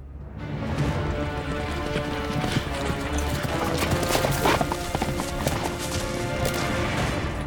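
The galloping hooves of a centaur pound in a dense, rapid roll. The loud drumming holds steady from start to finish.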